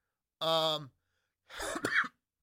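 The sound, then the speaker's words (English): Two coughs from a man, separated by a short silence: the first is a voiced, harmonic bark and the second a rougher, noisier burst. “Excuse me for coughing there for a minute there.”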